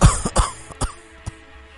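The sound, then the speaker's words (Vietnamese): An elderly man coughs in a few harsh, rasping bursts. The first is the loudest, and quieter coughs trail off after it, with no talking. “Bố ho làm con mất ngủ hả?”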